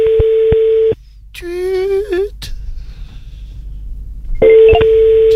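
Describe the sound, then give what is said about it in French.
A microphone mute notification tone plays as a short run of rising electronic beeps between two longer steady telephone-like tones, loud and clean with no talk over it. “Oh, une petite notification. Non, c'est quand tu coupes le micro, ça.”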